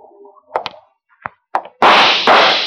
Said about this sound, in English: That's five shots, Lud. You got one left to make good on.